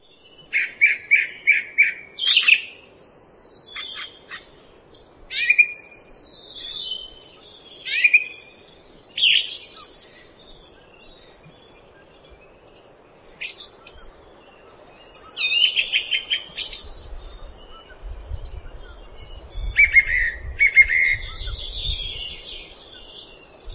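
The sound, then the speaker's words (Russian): A song thrush sings in clear, bright phrases. Short notes are repeated several times within a phrase, with brief pauses between bursts, and a low rumble joins under the song in the later part. “Певчий дрозд.”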